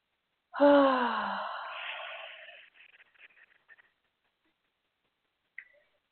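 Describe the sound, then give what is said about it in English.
A person draws one long, deep, audible breath in that gradually tails off, followed by a few faint small clicks and one brief tick near the end. “Take a deep breath”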